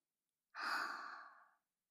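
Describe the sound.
A single soft breath during a guided breathing exercise, a faint airy rush lasting about a second that starts abruptly and tapers away, alone against silence.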